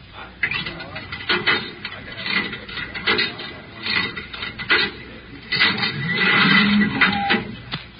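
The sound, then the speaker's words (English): Clunking mechanical rattles of a coin-operated cigarette vending machine, with metallic clatter and clicks running under men talking. “There's some change for the cigarette machine.”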